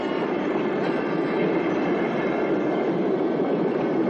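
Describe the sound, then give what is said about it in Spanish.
A train rushes past at high speed beside a railway track. Its steady, loud, dense rumble and rattle of wheels and cars runs unbroken through the whole clip, with no talk. “observa desde abajo cómo pasa el tren junto a los tres”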